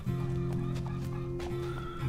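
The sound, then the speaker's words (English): Horses kept at a home and taken out for riding, heard as a steady, sustained animal sound that runs loud and even through the short clip, with no talking. “Oh, wow, you got horses too?”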